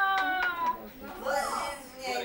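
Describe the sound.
An infant cries in a few short, high, strained wails, followed by a longer cry that rises and falls in pitch.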